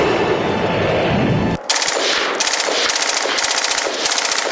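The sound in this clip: Gunfire: a loud, sustained rumbling blast cuts off abruptly, then many rapid bursts of automatic fire crackle in quick, uneven clusters.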